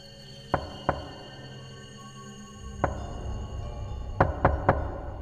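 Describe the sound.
Knocking on a room door at night: sharp, fairly faint raps over a low hum, with a pair of knocks, then a single knock, then a quick run of three.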